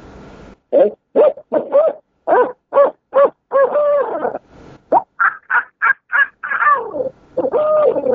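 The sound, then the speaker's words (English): An owl locator call used for turkey hunting, blown by a person on a caller to imitate an owl. Many loud, rhythmic hoots run into a higher, rapid, excited scream, then drawn-out, descending, laugh-like notes at the end. “in using an owl call, you want to put an excited sound in it, like a squall or a scream. And it would sound like this right here.”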